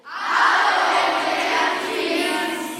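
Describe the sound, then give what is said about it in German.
About eighty fifth-grade schoolchildren at the Thomas-Mann-Gymnasium in Oschatz shout together in one loud, sustained collective cry. It swells quickly and holds for nearly three seconds before easing slightly at the end. “Da habe ich mich mit den 5. Klassen verabredet und die 5. Klassen, die klingen so.”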